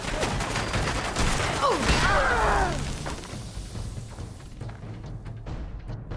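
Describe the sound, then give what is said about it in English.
A grenade thrown into a room in a video game explodes: a loud, dense burst of crackling, booming noise that lasts a couple of seconds, then settles into a lower, rumbling tail. “So I think I threw that grenade, and then it bounced off the back of Kate's head into the room.”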